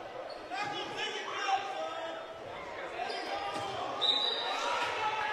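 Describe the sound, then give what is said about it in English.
A basketball free throw clanking off the back of the rim, the front of the rim and the back iron before popping out, a few hard knocks heard under an announcer's ongoing commentary. “First free throw hit the back of the rim, the front of the rim, the back iron once again, and popped out.”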